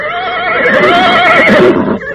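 A horse neighs in one loud, wavering whinny lasting about two seconds, with bright harmonics and no voices.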